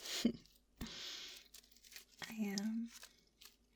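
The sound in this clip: Crinkling from a snack bag of aged white cheddar rice and corn puffs: a few soft bursts of rustling and crackling plastic, separated by quiet gaps.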